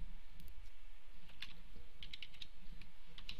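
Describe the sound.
Someone types on a computer keyboard, producing faint, scattered clicking keystrokes in small irregular bursts over a low steady hum.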